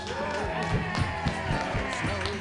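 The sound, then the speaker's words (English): Applause for a comedian at a comedy workshop show, a steady, dense patter of many hands clapping throughout, with a voice talking over it. “Give it up for Pam Benjamin,”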